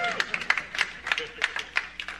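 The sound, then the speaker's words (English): Faint applause: clapping from the front row of an audience at a Bible teaching, a quiet, uneven patter of many sharp claps. “See, front row's clapping, folks.”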